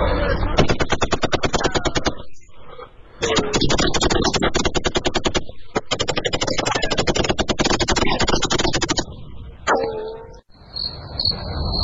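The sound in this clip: Rapid automatic gunfire from a shootout between police and smugglers, loud and sustained in a few long, dense bursts with brief gaps between them.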